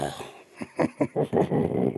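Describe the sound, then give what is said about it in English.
A man imitates a walrus purr with his voice: a rhythmic run of low, growling pulses that speeds up and merges into a continuous guttural rumble. “That was my walrus purr.”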